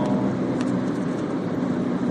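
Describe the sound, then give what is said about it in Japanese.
Inside a moving car on the way to a rehearsal studio, a steady low road rumble and engine hum fill the whole stretch evenly, with no voices present. “そのステージに向けての練習スタジオに向かう車内で撮っております”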